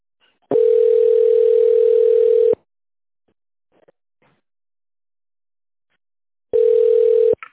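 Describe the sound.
A steady telephone tone plays while a call is being transferred to a specialist: two long, even beeps, each lasting about two seconds, separated by several seconds of near silence. The second beep is cut off at the end.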